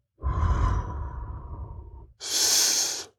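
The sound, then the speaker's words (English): A person blows air in two breathy exhalations: a longer, softer, lower-pitched rush of breath, then after a brief gap a shorter, sharper hissing blow. “Feel me blow on it.”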